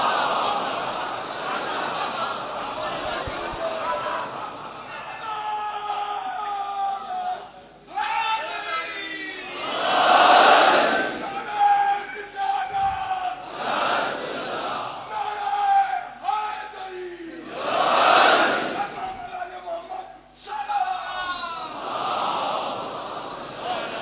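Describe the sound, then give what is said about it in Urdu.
A crowd shouts back the Naara-e-Haidari slogan response at a religious gathering, swelling in several loud collective roars between stretches of a leading voice calling out. “نعرہ حیدری، آواز بلند، نعرہ سلامات.”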